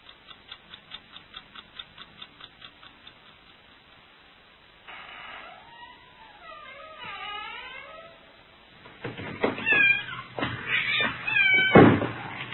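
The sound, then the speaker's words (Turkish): A cat meowing: soft clock ticking at first, then a drawn-out, wavering meow, followed by louder, sharper yowls. “Ay şu kedi. Çekil şuradan.”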